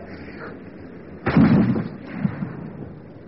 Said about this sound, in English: It could be someone poaching. No, it was a rifle, not a shotgun.